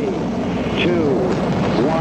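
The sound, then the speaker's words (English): Apollo 11's rocket engines roar at liftoff, a dense, unbroken rumble filling the whole moment while a voice speaks over it. “3, 2, 1, 0. All engine running. Liftoff. We have a liftoff. 32 minutes past the hour. Liftoff on Apollo 11.”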